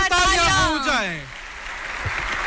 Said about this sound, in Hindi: देवियों और सज्जनों तालियों की गड़गड़ाहट रुकनी नहीं चाहिए